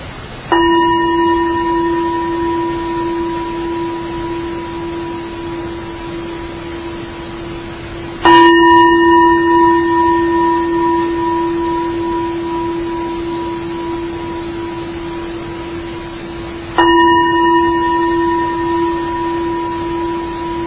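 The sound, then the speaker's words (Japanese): A bell is struck three times for a breathing meditation, at even intervals about eight seconds apart. Each strike rings with a clear, sustained tone that slowly fades before the next, with no voices. “鐘の音を3回聞いてくださいね”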